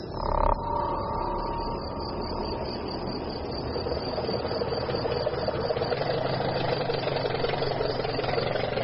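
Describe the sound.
A lorry engine running as the truck drives on, a continuous low, rumbling drone that holds steady throughout with a brief louder burst at the start.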